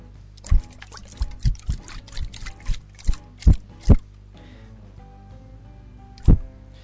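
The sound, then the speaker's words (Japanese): Shaking of a Furu Furu shaker, a run of irregular soft thuds and sloshing knocks, then a pause before one final strong shake. “フルフルシェイカーを開けます。じゃあ、振りますよ。強く。音を聞こえるかな？ちょっと振るよ、”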